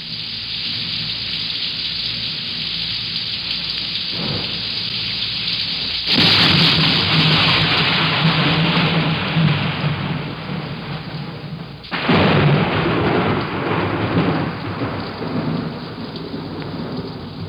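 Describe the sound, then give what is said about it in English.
Steady rain pours down in a broad, constant hiss, and two loud rumbling swells of thunder break in partway through before easing back into the rain. “there's rain.”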